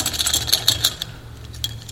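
A bunch of keys is shaken, making bright metallic jingling in quick, clustered bursts that are strongest in the first second and then thin out to a few scattered clinks.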